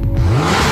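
A car engine revving hard in a quick, loud burst, its pitch climbing sharply before leveling off into a roaring whoosh, all in under a second.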